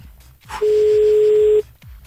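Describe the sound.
A telephone ringback tone sounds while a call is placed again: one steady, mid-pitched tone about a second long, set between quiet gaps with soft low noises.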